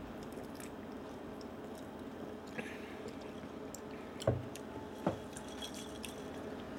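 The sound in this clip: Quiet crunching as someone chews peanuts alongside tonic water, with two short, sharp bites standing out over a steady low background hiss.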